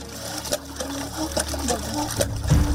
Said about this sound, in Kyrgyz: Сууну жер астынан сордуруп жаткан бул жабдыкты жакында эле арабтардын фонду койдуруп кеткенин айтышты.